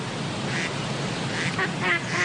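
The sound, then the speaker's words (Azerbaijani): A duck quacks in a few short, nasal calls spaced irregularly over a steady low background noise, the later calls coming closer together. “Başqa bir heyvan ki, onun izini folklorumuzda araşdırmaq olar, ördəkdir.”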